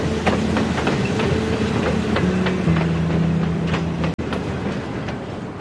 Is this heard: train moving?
yes